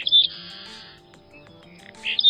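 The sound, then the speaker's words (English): A Seaside Sparrow sings: short, buzzy, trilled bursts open and close the phrase, with a thin, high, held tone between them. The song is fairly loud against a quiet background. “Today's featured feathered friend, the Goldilocks bird. Just right. A Modromus Maritimus, the Seaside Sparrow.”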